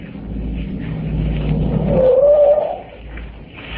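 A car driving up, its low engine rumble swelling steadily toward a peak with a short tonal whine over it, then easing off and settling into a steady idle-like drone.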